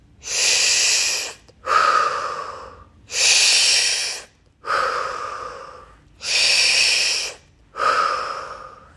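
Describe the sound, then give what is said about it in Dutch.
Steady nasal breathing during a guided breathing exercise: six even breaths that alternate between inhaling and exhaling, each drawn-out and airy, at a calm regular rhythm, with no talking. “via je neus in, via je neus uit. Nog een keer in. Uit.”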